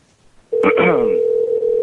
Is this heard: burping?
no